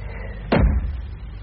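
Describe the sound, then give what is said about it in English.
A single door thud from a door inside a room: one short, loud bang that jumps out of quiet background hiss and fades over a fraction of a second. No one speaks. “Now, that door on your right. Don't be shy. Come on.”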